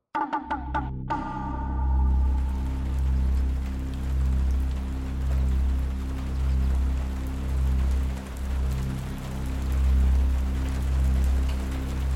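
Rain falls on an afternoon outside a quiet café, a steady, dense hiss that holds for the whole stretch after a few sharp clicks at the start, over a continuous low droning hum.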